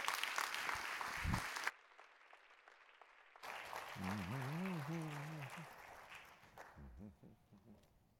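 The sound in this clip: Audience applause welcoming a pastor and another speaker: dense clapping that cuts off after under two seconds, followed by quieter room murmur and a voice speaking.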